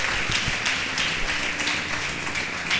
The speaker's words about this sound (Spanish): Dele un aplauso a Dios que lo perdonó.